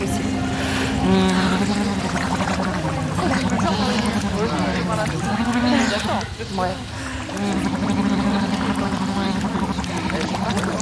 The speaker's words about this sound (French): Mais en fait, ce qu'on va faire, c'est se moucher dans l'eau.